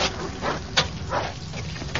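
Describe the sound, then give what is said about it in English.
A dog barks in a series of short, muffled bursts spread across two seconds. The barks are moderately loud and heard alone. “Stop barking, slug, for God's sake.”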